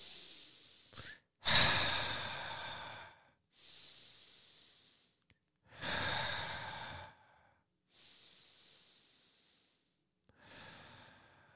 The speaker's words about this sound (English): Let's all breathe in and breathe out three times.